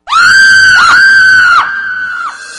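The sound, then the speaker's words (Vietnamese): A young man screams loudly in fright at a face glimpsed in the dark: one sustained, piercing high-pitched cry lasting over two seconds, wavering slightly and easing a little toward the end. “Cậu thực tình không nhịn được, gần cổ gào toáng lên.”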